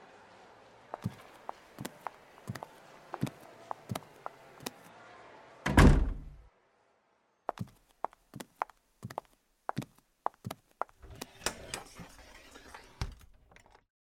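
A door is shut in a restaurant's private dining room, producing one loud heavy thud midway, with scattered light knocks and clicks before and after it.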